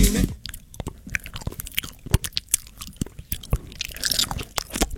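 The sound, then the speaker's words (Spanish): Faint, wet chewing and crunching from someone eating with their mouth noisy, with many small irregular clicks and smacks in quick succession. “No hay nada más feo que te hagan ruido con la boca mientras comen.”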